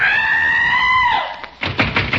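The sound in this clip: Police pounding on a door, a few heavy, rapid knocks that come after a long, held vocal cry sliding down in pitch.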